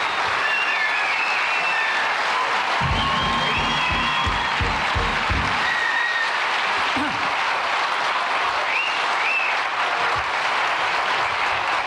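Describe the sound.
An audience applauds and cheers comedian Bob Newhart's entrance. Sustained clapping runs for about twelve seconds, with scattered high whistles and whoops above it.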